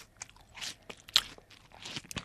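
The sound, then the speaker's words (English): Someone bites into and chews a plum during a taste test. A few soft, wet crunching bites and chewing noises sound faintly with no talk. “What is it? A plum.”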